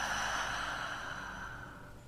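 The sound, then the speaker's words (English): A single slow, gentle breath during a guided breathing exercise: soft and airy, fading gradually, with no talking. “Again, gently breathing in and out.”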